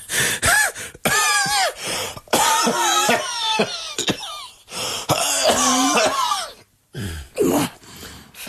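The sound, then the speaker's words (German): Heavy, raspy coughing from a person with a cold who smoked heavily for decades, at a doctor's visit. Many loud, harsh bursts come in fits, with strained, voiced gasps and wheezy breaths between them and only short pauses. “Verkühlt sind sie, ne? Ach, Husten.”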